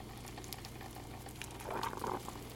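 Food sizzles in a frying pan with a faint, steady hiss and soft crackles, swelling briefly louder near the end.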